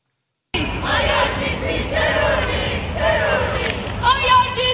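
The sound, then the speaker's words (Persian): Iranian protesters chant at a rally in front of the Harry Hays Building in downtown Calgary, a loud crowd shouting in strong, rhythmic bursts that repeat steadily throughout. “این صدای آزادی خواهی ایرانیان شهر کلگری است که از مقابل ساختمان هری هیز در مرکز شهر تنین انداز هست.”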